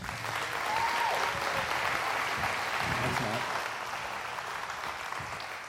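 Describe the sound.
Audience applause greets a guest speaker at a Southern Ohio gathering. The clapping is steady and dense throughout, loud and continuous with no clear break.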